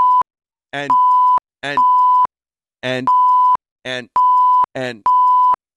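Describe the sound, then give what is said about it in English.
Security system beeps repeat in a regular pattern: each short warbling chirp is followed by a steady, clear mid-pitched tone. The sequence recurs several times, loud and alone, with silent gaps between. “Now, did you hear those beeps? Yep. Those are the security.”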